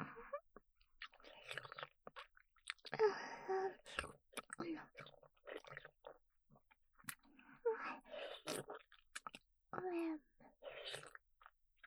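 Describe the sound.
A mouthful of food is chewed with wet, crunchy mouth sounds and small clicks in an irregular rhythm, mixed with soft breathy vocal noises.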